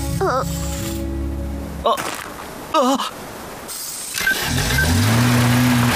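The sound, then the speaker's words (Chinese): Racing car engine revving, its tone climbing steadily over the last couple of seconds, preceded by a few brief, sharp sound effects and short bursts of noise. “那是烈焰冲锋车，泰克诺赛车。”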